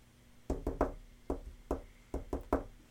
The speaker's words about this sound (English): Do a knock.